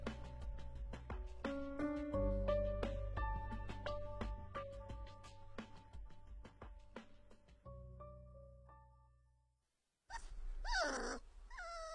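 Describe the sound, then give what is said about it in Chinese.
An adult dog being fed at the foot of a staircase gives a brief, quiet burst of whining yelps near the end, after a stretch of soft melodic notes fades to silence. “池小池蹲在楼梯下喂狗，狗肉不是小狗了，但还是喜欢抱着池小池撒娇。”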